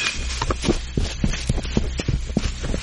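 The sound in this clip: Running footsteps of a group of people on foot in a jungle, a steady patter of many quick, soft thuds over a low rumble, with no voices.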